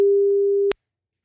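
Ringing tone of an outgoing telephone call: one steady, mid-pitched electronic beep lasting under a second, then an abrupt cutoff into silence.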